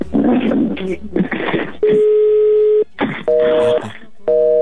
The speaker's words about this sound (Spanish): En el primer intento nos manda buzón.